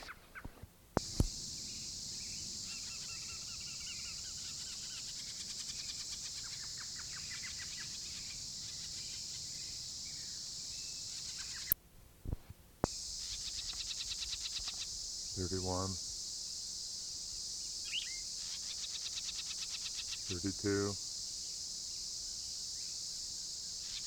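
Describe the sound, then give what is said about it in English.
Two parent birds give harsh alarm calls near a nest with young in a small ponderosa pine. A few brief, raspy, buzzy bursts stand out over a steady high insect drone. “these are protest notes being given by both parents, because I now see there's a nest with young, built 5 feet up in a small ponderosa pine.”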